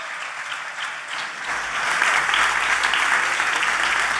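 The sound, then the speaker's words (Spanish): An audience at a blues festival applauds: dense, steady clapping that grows noticeably louder partway through and stays full and even to the end. “Los Borbones, Minchu Ruiz, un aplauso fuerte para él.”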